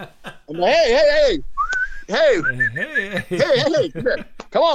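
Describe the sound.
A person whistling to get a server's attention: short, high whistled notes, one sliding upward, mixed with loud voiced vocal sounds and laughter-like noises.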